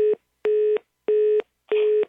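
A telephone line gives a repeating tone after the caller hangs up: four evenly spaced steady beeps of equal length and pitch, loud and alone, separated by short silences.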